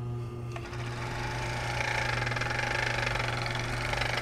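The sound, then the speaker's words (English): A serger overlock machine, which stitches and trims fabric edges at once, runs with a steady mechanical whir and hum. Partway through it grows louder, settling into a faster, evenly pulsing rhythm. “So I would like to play my serger for you. Turned on. It has a beautiful, mellow sound to it.”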